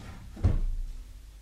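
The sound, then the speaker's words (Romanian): A wooden drawer slides shut with a single dull thump after a sealed envelope is placed inside. A faint, brief rumble follows the thump in otherwise quiet surroundings. “Uite. Închid plicul aici. în sertar.”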